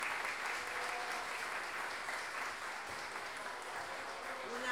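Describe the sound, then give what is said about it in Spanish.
Audience applause at a payador counterpoint tournament in Chile, continuous and fairly faint clapping that holds at an even level across the whole clip. “Cecilia Astorga Arredondo y pido un aplauso también para ella.”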